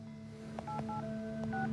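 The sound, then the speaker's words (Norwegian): Keypad beeps as a phone number for a district court is dialled: a few short dual-tone beeps in quick succession with soft key clicks, over a steady low hum. “taster nummeret til tingretten”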